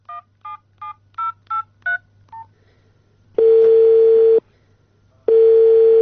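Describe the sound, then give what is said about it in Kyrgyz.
Touch-tone beeps as a telephone number is dialed: seven short tones in quick, steady succession, each a different pitch. After a brief pause, two long, loud, steady ringing tones follow, separated by a gap. “Биз андагы телефон номурлардын бирине байланышып көрдүк.”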